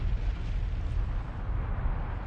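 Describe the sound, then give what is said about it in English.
An erupting volcano in Iceland, exploding and throwing out lava, produces a deep, continuous low rumble with a steady roar and no distinct separate blasts. “Then, on March 23, the volcano exploded. The volcano shot out melted rock called lava.”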